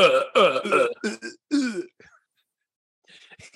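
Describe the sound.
A voice imitates gagging or retching with a burst of harsh, throaty heaves, then a pause and a few faint, rough noises at the end.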